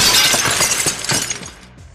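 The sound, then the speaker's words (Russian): A sledgehammer swung hard onto a floor shatters a head of ice, giving a loud, dense crash full of sharp cracking and clinking fragments that thins out and fades over about two seconds. “Горбовец со всего маха стукнул молотом по полу.”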